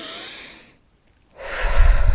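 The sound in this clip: Deep, conscious breathing: a soft, airy breath fades into a short silence, followed by a louder, rougher rush of breath.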